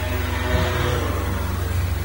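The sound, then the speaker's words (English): A motorbike passes in the street, heard as a steady low engine drone that holds at a moderate level for the whole stretch, with no talk. “Just waiting for the motorbike to go past there in the street.”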